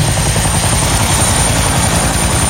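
A descending aircraft roars with a loud, continuous engine drone and a low throbbing pulse like rotor or propeller beat, steady throughout with no voices.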